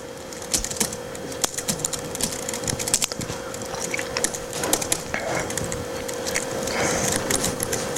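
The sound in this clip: Keyboard typing as a small C program is written, a steady stream of irregular, crisp clicks with occasional sharper key strikes over a constant low electrical hum.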